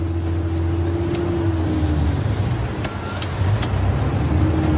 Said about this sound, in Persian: بارون هنوز شدیده. جلال میاد پشت فرمان میشینه و حرکت می‌کنه.